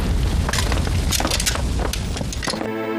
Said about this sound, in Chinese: 夫人房间着火！ 快救火！